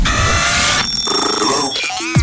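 An electronic telephone ring for a radio call-in line, loud and tonal, with steady bright tones that shift to a different pattern partway through.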